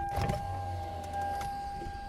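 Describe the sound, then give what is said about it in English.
A car's power window rolls down with a steady electric motor whine and low mechanical hum, a brief rattle near the start, running for about two seconds. “Okay, let me roll the window back down again, because it's getting stuffy as fuck in here.”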